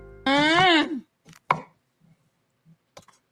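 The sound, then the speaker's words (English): A knife chopping an onion on a board, heard as a few sharp, sparse knocks separated by quiet gaps, with a brief tonal sound just before the cuts. “Let's see if she chops it with vigor.”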